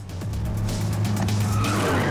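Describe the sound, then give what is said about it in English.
Stunt cars race at speed through doorways, giving a loud, continuous roar of engines with squealing, skidding tires that grows slightly louder toward the end. “just those cars coming through those doorways, they're traveling at speed”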